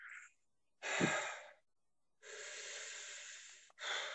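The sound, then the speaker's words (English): Faint, slow deep breaths, with a few long, airy inhales and exhales separated by short pauses, each with a soft hissing rush. “Sure, I know that, but do they know it? Deep breaths.”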